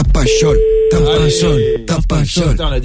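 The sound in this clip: Ringback tone of an outgoing phone call waiting to be answered: one steady tone lasts about a second and a half while voices talk over it.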